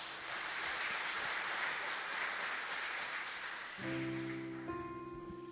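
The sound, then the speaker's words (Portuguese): Congregation applause in a church service, a dense sustained wash of clapping that holds steady and loud before tailing off as sustained organ or keyboard tones enter underneath. “Aplauda o Senhor e sente.”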